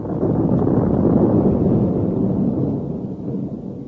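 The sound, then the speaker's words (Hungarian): A deep, loud, rumbling roar as a city is blown up. The sustained low boom holds steady for several seconds before slowly fading. “Mi volt ez? Felrobbantják a várost.”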